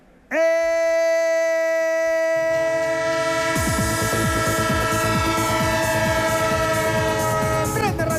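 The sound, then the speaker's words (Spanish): Train horn blaring as one loud sustained chord across the whole clip, joined partway through by the rhythmic clickety-clack of rolling wheels on the rails beneath it. “El tren de Onda Cero, claro que sí, es que todavía nos queda camino, es que no hemos llegado a la estación final.”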